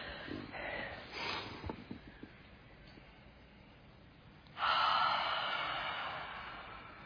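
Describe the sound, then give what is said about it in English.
A group breathing deeply during a guided breathing exercise: slow, soft inhale noise, a quiet pause, then a loud, long, airy exhale that fades gradually. “We're going to breathe in deep, breathe your higher power in, and then as you breathe out in your mind, name what you're letting go.”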